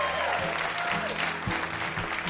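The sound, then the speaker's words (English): Audience applause for a guest, a steady wash of clapping that stays fairly level across the whole stretch, with a few louder low thumps standing out from the crowd noise. “Huge round of applause for our VIP”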